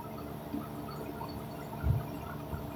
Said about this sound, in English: the air conditioning unit is way too loud.